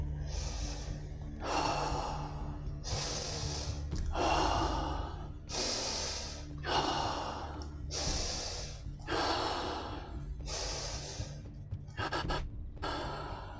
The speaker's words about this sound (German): Und jetzt beginnst du tiefer und intensiver zu atmen. In einem Rhythmus, der wenige Sekunden einatmet und wenige Sekunden ausatmet.